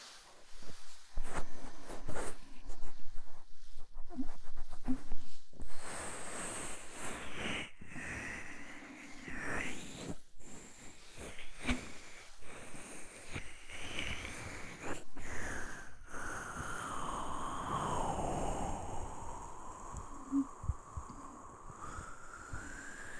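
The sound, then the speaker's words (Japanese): Fingers and palms rub and brush over the ears of a binaural microphone during an ear massage, producing continuous soft, shifting friction and muffled swishes at a faint level, with no talk. “ではこちらもまずはお耳のマッサージから。指と手のひらを使ってのお耳全体のマッサージです。”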